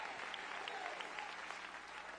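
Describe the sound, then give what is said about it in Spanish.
Faint, steady applause of praise from a church audience honouring the risen Christ, many hands clapping in a soft, continuous wash. “Dale un aplauso de alabanza al Cristo resucitado.”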